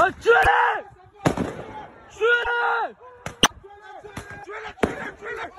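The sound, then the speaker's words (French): Firework mortars fired at police during unrest in France: several dull, sharp booms at irregular intervals, mixed with shouting voices. “Et puis ces bruits sourds, des tirs de ce que l'on appelle des mortiers d'artifice, des engins pyrotechniques, mais détournés par des groupes de jeunes dans de nombreuses villes de France et utilisés contre les forces de l'ordre.”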